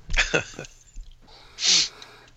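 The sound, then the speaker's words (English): Hard breathing from a person running: breathy, voiced puffs at first, then one loud, rushing breath standing out from the rest. “I'm running while we do this podcast. It usually takes about an hour. So wow. I'm not sure I'll be finished by the time it's done, but your breath is so steady.”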